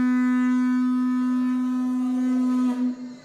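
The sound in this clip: A ram's horn sounds one long, steady blast with a bright, buzzy tone at a fixed low-mid pitch. The note holds evenly for nearly three seconds, then wavers and breaks off.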